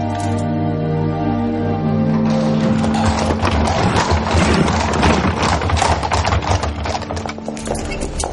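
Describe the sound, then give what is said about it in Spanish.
Horses' hooves clip-clop as they pull a carriage in a period royal drama. After a couple of seconds of sustained tones, a steady, fairly loud run of many hoofbeats continues to the end. “Mientras, llevan preso a Johan y lo suben a un carruaje.”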